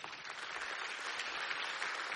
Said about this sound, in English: the applause means we want you here. Listen, I'm going to translate the applause for you.